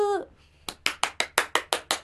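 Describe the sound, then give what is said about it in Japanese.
A small group breaks into applause after a voice ends, a steady run of sharp, fairly loud claps at an even, quick pace with no talk over it. “みんな拍手。”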